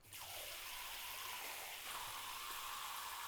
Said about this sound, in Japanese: 限りがありますが、ちゃんと水が出ます。ちょっと海水を流しますね。